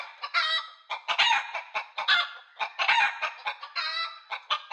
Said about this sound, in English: Well, there you chickens is. How the hell you get in the radio studio? Get the hell away from that microphone. Go on, get. Get on back to your coop and start laying them eggs.